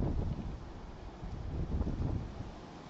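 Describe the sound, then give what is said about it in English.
Strong wind blows across a microphone on a ridgetop, making a gusty, rumbling buffet that swells and eases over a few seconds. Nothing else stands out above the roar. “We have a lot of wind right now. I hope you guys can hear me okay.”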